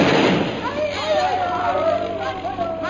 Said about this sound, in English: That bomb was dropped a half a mile ahead of us. Then hold your ears, Bhutan. This one is going to be closer.